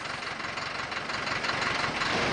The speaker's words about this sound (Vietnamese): Phương tiện lưu thông rất đa dạng, chủ yếu là xe container, xe tải trọng lớn.